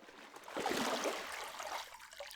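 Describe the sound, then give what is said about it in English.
Faint splashing water rinses a person off, swelling into a soft wash of pouring and trickling before thinning out again. “Let's rinse you off before continuing.”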